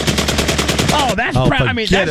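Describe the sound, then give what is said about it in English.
A semi-automatic gun fitted with a forced reset trigger fires a fast, evenly spaced string of many loud, sharp shots for about a second. Excited voices talk right after the burst ends. “It's a mechanism that forces a trigger to reset after each shot. I mean, wow, look at this gun.”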